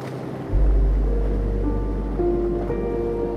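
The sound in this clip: Ocean waves wash in a steady, unbroken low rush that starts abruptly after a brief quiet moment and holds at an even level, with faint sustained tones floating above, suggesting a calm, sleepy sea.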